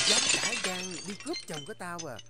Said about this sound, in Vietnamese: thì từ đâu truyền tới tiếng đổ vỡ và chửi rủa.